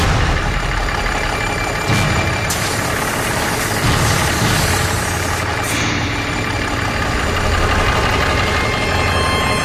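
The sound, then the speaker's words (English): A truck engine idles while running hot, its clutch fan failing to engage. A loud, steady rumble with broad mechanical noise continues throughout, with no talking. “Well, I'm going to do the one thing I never want to do, and that's shut my truck off.”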